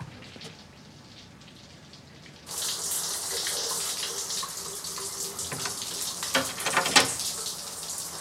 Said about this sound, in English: She rinses her hair and rubs her face under the running water.